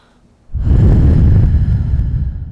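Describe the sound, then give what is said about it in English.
A long, close exhale of bubblegum skunk cannabis smoke: a loud, breathy rush of air that begins abruptly and fades slightly over about two seconds. “That's an exhale of bubblegum skunk for our ASMR loving listeners.”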